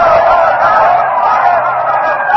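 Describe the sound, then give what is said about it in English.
A Roman crowd denounces Caesar's assassins and calls for vengeance after the reading of his will. The sound is a dense, continuous roar of many voices, loud and steady throughout. “Stepping back, the herald rolls up the parchment, and the crowd is now denouncing Decimus Brutus, all the conspirators, is calling for vengeance.”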